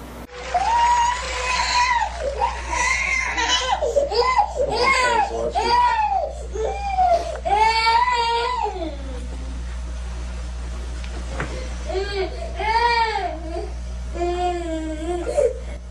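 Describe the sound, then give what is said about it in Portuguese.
A young child crying during a tantrum, with loud, repeated sobbing wails that swoop up and down in pitch, broken by brief pauses, over a low steady hum. “Vejamos uma criança fazendo birra e aí o jogo que ela faz. Percebamos a forma como ela age.”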